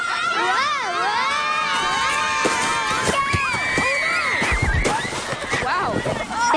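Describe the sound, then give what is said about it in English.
Children shout, whoop and cheer on a steep sledding hill at Pioneer Park on a cold, early-snow November day. Many overlapping high voices rise and fall throughout, loud and continuous. “Let's rejoin the boys as their sleds rocket down the steep hill at Pioneer Park.”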